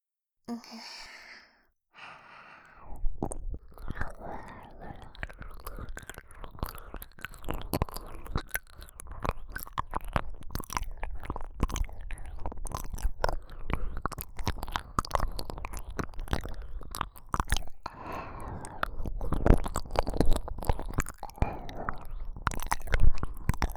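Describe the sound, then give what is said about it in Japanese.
Wet ear-licking mouth sounds continue throughout as many soft, quiet smacks and clicks, mixed with breathy sighs. “見ればわかるでしょ。耳舐めてやってんの。”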